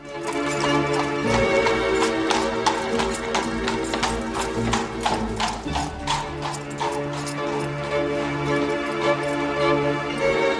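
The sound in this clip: Hooves clip-clop as a horse-drawn cab travels through murky city streets: a steady trotting rhythm of sharp strikes runs under sustained music.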